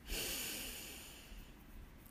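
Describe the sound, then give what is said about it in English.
A deep breath in and out, taken slowly during a calming exercise. A rush of air starts abruptly, then gradually thins and fades into quieter, softer airflow. “Deep breath in and out.”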